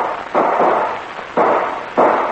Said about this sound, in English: Those were shots.